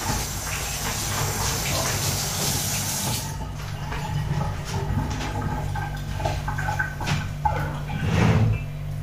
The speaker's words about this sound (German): Hände kurz abspülen.